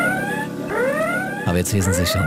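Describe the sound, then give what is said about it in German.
Spaceship red alert alarm effect: repeated rising, whooping siren sweeps. A man then starts speaking over the end of the alarm. “Der rote Alarm oder Alarmstufe Rot, wie wir uns erinnern, auf der Enterprise.”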